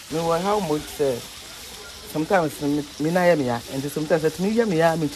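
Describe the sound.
Fish frying in a coal pot over red-hot charcoal makes a steady hiss and sizzle beneath a person talking almost throughout.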